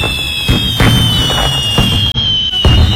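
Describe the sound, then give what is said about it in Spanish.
A fireworks sound effect gives several sharp crackling bursts at irregular intervals over a steady, high whistling tone, loud throughout with no talk. “¡Fuegos! ¡Fuegos pirotécnicos!”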